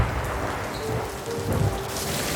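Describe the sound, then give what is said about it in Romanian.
A hailstorm strikes a town at night with a dense, continuous patter of hail and rain over deep, low rumbling. The sound stays steady and fairly loud throughout, with no talk. “În noaptea aceea, o furtună cu grindină lovi orașul.”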